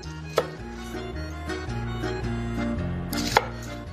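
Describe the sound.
A knife chops shallots on a board, with two sharp, distinct strikes a few seconds apart over a steady low background.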